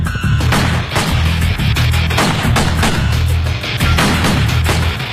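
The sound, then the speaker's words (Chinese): Gunshots ring out in a dramatized assassination on a railway platform in 1931, many sharp cracks in a rapid series over a low, steady rumble. “刺客将秘书误认为是宋子文，连开两枪将其当场击毙。”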